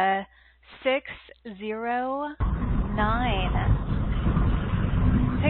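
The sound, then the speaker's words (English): Car road noise from someone driving, heard over a phone call: a steady rumble and hiss cuts in partway and continues under a caller's voice until the end. “I think you're driving, it sounds like.”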